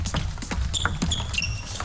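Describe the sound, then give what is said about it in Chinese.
A professional table tennis ball clicks sharply off bats and table as Tomokazu Harimoto serves against Liang Jingkun and a quick rally follows. Many light ticks come in an uneven rhythm, with a few high squeaks in between. “张本智和发球”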